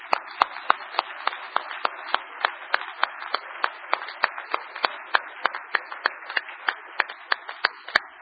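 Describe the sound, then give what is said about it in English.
Church audience claps for newly ordained men, the claps sharp, even and rhythmic, many in a steady beat, crisp and clear with little else around them. “We want to congratulate you for your ordination. About a hand for these men.”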